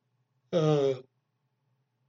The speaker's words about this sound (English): gotta get rid of these stupid things. Anyway, stupid yawns.